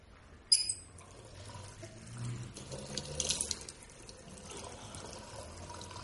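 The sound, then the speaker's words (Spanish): Water runs from a tap as a woman washes her face at a sink. The flow is faint and steady, with soft splashing swells and one sharper splash near the start. “Yoya se quita la capucha negra y se lava la cara”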